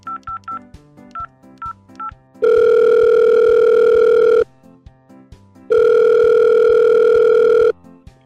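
Telephone line ringing at the start of a prank call: a quick run of dialing beeps, then two long, loud, steady ring tones separated by a short pause.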